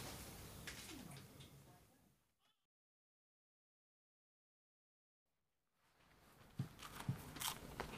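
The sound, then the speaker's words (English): Someone bites and chews a cheese and ham toastie, giving crisp, crackly crunches with a few sharper bites, broken by a stretch of complete silence in the middle. “I haven't seen anyone get that excited about a cheese and ham toastie.”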